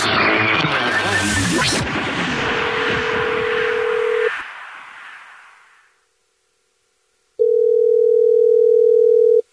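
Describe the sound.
A telephone dial tone from an outgoing call: a steady, unwavering mid-pitched tone sounds first beneath a louder noisy passage, then cuts out, and after a short silence returns loud and clear on its own.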